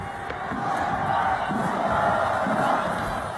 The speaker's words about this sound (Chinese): 现场我们能够清晰的听到两边的球迷们的助威声。